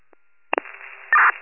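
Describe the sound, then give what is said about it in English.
A phone app plays a dispatch-call notification: a couple of clicks, then a faint hiss and a short, loud burst of tone. “Sorry, notification from NJ1 call.”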